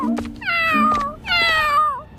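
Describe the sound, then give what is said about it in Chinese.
A kitten meows twice, each a drawn-out, fairly loud cry with a slightly falling tail, heard alone with no talk. “你好，小猫，你想要这个鱼骨头吗？”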